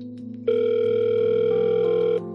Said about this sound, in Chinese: 听筒里响起等待的滴滴声